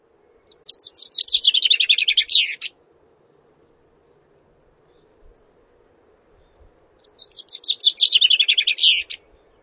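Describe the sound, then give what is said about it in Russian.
A chaffinch sings two loud, rapid trilled phrases separated by several seconds of quiet. Each phrase steps downward in pitch and ends in a brief flourish, over a faint steady low hum. “Зяблик.”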